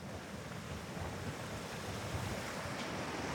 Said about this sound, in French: Alors là, on passe la petite passerelle. Voilà, on change de rive, on traverse le cours d'eau de la coupe de Varilhes.